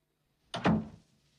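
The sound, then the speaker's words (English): A door thuds shut as someone walks out of a room. A single dull thunk with a short sharp onset fades quickly, fairly faint, with no talk. “Joe looks at Emil sourly, then heads for the door and leaves the room.”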